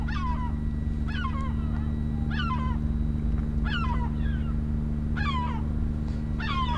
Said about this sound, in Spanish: ¿Suenan gaviotas?